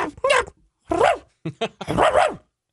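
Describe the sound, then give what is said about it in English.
Recorded dog barking played from a train to drive deer off the tracks: several loud, sharp barks in quick bursts with short gaps between them. “But that sound, it's dog yapping for 20 seconds. Deer are afraid of dogs, so they run away from the train tracks instead of standing there curiously.”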